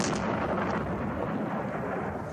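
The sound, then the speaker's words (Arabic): Artillery shells and rockets strike houses in populated villages in Sirwah district, west of Marib, Yemen. The shelling forms a dense, continuous roaring rumble that stays loud and steady throughout, with no pauses. “بث المركز الإعلامي للقوات المسلحة اليمنية مشاهد مصورة توثق لحظة قصف ميليشيا الحوثي لمنازل المواطنين في القرى الآهلة بالسكان بمديرية صرواح غرب مأرب بالقذائف المدفعية والصواريخ.”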